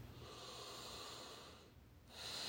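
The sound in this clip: A big deep breath, soft and airy, heard faintly over a low steady background, with the breath noise swelling toward the end.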